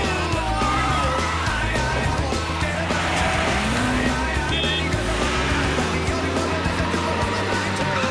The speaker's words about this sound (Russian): Одна машина отстала. Еще две гонятся.